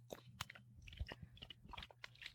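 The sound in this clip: Someone chews a processed cheese slice: many small, faint, wet clicks and soft crunchy bursts in an irregular rhythm, with no talk.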